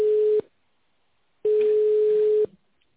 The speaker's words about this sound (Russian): Перевод звонка на внутренний номер 5-0-0-0. Минуточку.